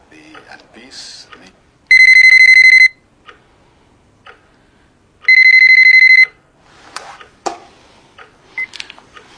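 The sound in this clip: Electronic telephone ringtone for an incoming call: two bursts of loud, high, steady beeping, each about a second long and separated by a pause, amid faint scattered clicks and rustles.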